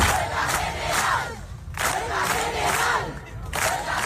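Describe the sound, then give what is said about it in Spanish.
A crowd at an open housing assembly in Las Palmas de Gran Canaria, organised by the Derecho al Techo platform, chants loudly in repeated rhythmic bursts separated by brief pauses. “Este es el sonido de la asamblea abierta organizada ayer en Las Palmas de Gran Canaria por la plataforma Derecho al Techo.”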